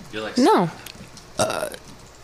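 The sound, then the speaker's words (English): A single short, voiced burp with a pitch that rises then drops, fairly loud, followed by a brief burst of people talking. “Did you just burp?”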